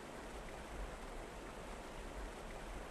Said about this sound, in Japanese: せせらぎが気持ちいい。